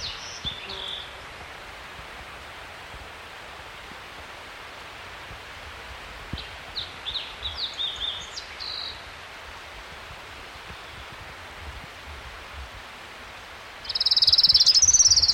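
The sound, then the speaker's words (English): An orange-crowned warbler sings along a creek at 6,300 feet: faint high notes come and go over steady rushing noise, then a loud, high trill bursts out near the end. “Orange Crown Warbler, number one? 6,300 feet along Trout Creek.”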